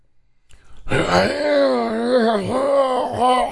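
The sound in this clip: A voice imitates a zombie moan during a Dungeons and Dragons tabletop game: one long, loud, wavering groan that rises and dips in pitch and runs unbroken for nearly three seconds after a quiet start.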